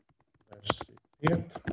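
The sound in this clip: Fingers type on a computer keyboard while entering a multiple-choice question, giving a few soft, clattery keystrokes in two short bursts with quiet gaps between.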